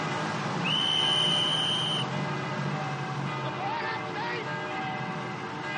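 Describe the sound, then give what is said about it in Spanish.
A single sustained whistle blast from a German soldier in a town square, a steady high tone lasting a little over a second over a constant background hum, then only the background continues. “En la plaza, un soldado alemán consulta su reloj y luego toca un silbato.”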